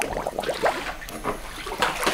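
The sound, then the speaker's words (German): Water sloshes and splashes as a person wades into a clear forest cenote, with irregular swishes and small splatters running throughout. “Um zu erkennen, wohin Robbie gleich abtaucht, gehe ich ins Wasser.”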